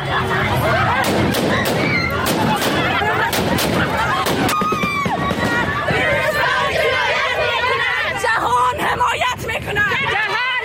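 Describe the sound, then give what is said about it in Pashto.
A women's protest crowd in Kabul is dispersed by gunfire fired into the air. Sharp cracks break through dense, loud shouting and chatter in the first half, and the crowd noise continues throughout. “دا په کابل کې د خزو هغه اعتراض و چې طالبانو په هوایي ډزو تیتو پرک کړ.”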